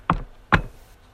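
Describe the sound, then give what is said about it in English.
Two sharp knocks on a door, short and evenly spaced, heard alone in quiet. “And they go to the doors, knock on the door.”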